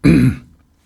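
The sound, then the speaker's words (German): Someone clears their throat with a single loud, rough burst. It lasts about a third of a second and then fades quickly into silence, with no talk. “Musst du kurz husten, hab's Mikro ausgemacht.”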